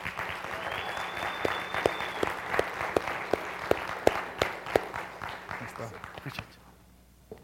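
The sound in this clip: Applause from a church audience welcoming a speaker: dense, sustained clapping with sharp individual claps standing out, holding steady before fading away near the end.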